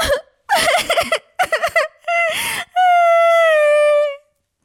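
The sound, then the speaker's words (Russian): A girl's voice cries in several short, choppy sobbing bursts, then breaks into a loud, sustained wail held for over a second before stopping. “И вдруг заплакала.”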